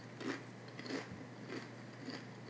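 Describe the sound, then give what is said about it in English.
Crunchy chips being chewed: faint, regular crunches repeating in an even rhythm, with no voices. “Chips are so fucking good when you're drunk. This just turns into an ASMR podcast.”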